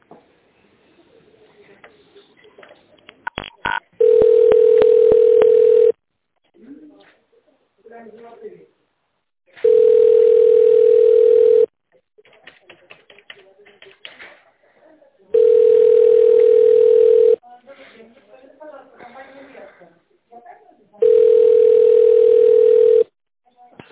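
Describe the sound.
A telephone line tone plays while a call is being transferred: four long, loud, steady beeps of about two seconds each, separated by stretches of faint line noise and clicks.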